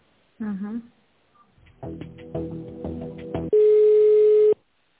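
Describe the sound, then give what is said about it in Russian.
Telephone call being transferred: a brief tonal burst, then a stretch of melodic beeping tones, ending in one loud steady ringing tone about a second long. “Так, давайте я вас переключу тогда.”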